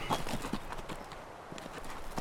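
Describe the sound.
Horses' hooves clip-clop as riders travel out of Missouri's valleys into a hot Kansas summer, a steady run of many sharp, moderately loud knocks in an even walking rhythm, with no other sound standing out.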